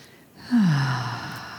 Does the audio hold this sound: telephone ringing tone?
no